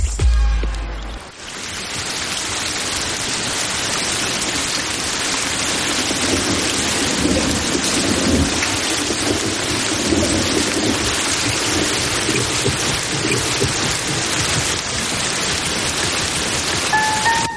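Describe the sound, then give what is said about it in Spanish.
Steady rain pours down in a dense, continuous hiss that stays evenly loud throughout, with no voices present. “La lluvia suele ponerme melancólico.”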